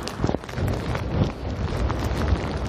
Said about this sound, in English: I've turned north. I'm walking directly into the wind.